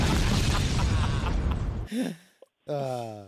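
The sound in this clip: A loud explosion sound effect, the "Traeger bomb", bursts as a dense, roaring blast that lasts nearly two seconds, then cuts off as people begin talking.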